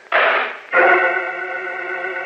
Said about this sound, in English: The metal door to the machine clangs shut on Jim Olsen and Professor Fields.